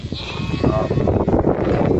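Sheep bleat in a grazing flock tended by a shepherd, their cries blurred into a dense, continuous rumble of noise.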